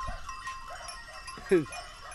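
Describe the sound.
A sheep from a flock being driven uphill on a mountain range gives one short, wavering bleat that stands out over faint background sound.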